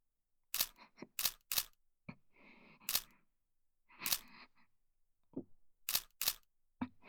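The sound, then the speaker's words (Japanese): Camera shutter snaps sharply several times as photos are taken, crisp clicks arriving singly and in quick pairs, with short whirring mechanical bursts between some of them and no voices. “写真撮って。”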